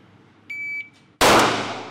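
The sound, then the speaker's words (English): A single gunshot at a live fire exam, with applicants shooting at a torso-shaped target. A short electronic beep sounds first, then one sharp, loud blast with a decaying tail. “The applicants are shooting at a circle printed on a cutout of a human torso. One shot, 2 seconds.”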